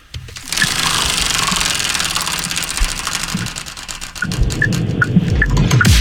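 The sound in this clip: A prize wheel spins with a rapid, continuous stream of ticking clicks, steady and loud for several seconds over a low rumbling noise.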